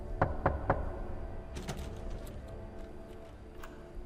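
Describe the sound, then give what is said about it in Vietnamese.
Knocking on a coffin: three sharp, evenly spaced knocks, then a few fainter, irregular taps over a low, steady background. “Những tiếng gõ cứ vang lên đáng sợ.”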